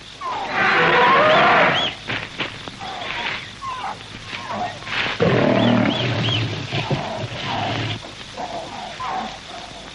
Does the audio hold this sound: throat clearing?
no

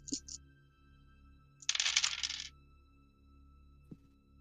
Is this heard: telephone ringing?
no

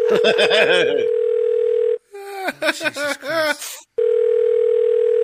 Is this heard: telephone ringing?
yes

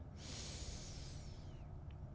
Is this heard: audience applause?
no

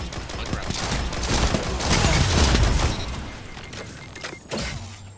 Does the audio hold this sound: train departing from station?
no

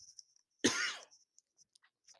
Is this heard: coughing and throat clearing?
yes

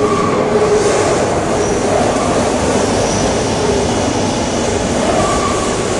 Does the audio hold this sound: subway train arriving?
yes

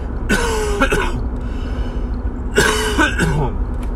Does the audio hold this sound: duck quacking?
no

